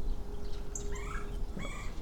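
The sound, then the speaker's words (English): Male and female flickers call back and forth in a couple of short bursts of sharp, faint calls over a low background rumble. “Oh, here's the flicker. He's right above me. Oh, we got male and female flickers talking to each other.”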